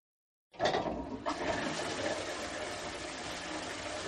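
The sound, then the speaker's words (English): A toilet flushing: after a moment of silence, a sudden rush of water starts and continues as a steady roaring swirl, with no voices. “This is the sound of diarrhea flushing your day away.”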